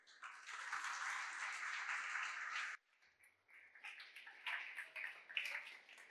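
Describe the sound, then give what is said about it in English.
Applause from an audience welcoming a speaker to the stage for a design talk on typography: dense, steady clapping for almost three seconds, then a sudden drop to lighter, scattered clatter that swells in uneven bursts. “So please put your hands together to give him a very warm welcome to the stage.”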